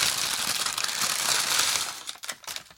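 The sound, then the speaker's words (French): Crinkling and rustling of a small paper bakery bag being opened, a continuous papery crackle that breaks into a few sharper, separate crinkles at the end. “Et je te laisse découvrir la friandise que je te rapporte, que je t'offre avec plaisir dans un petit sachet de boulangerie. Voilà, que je vais ouvrir en direct.”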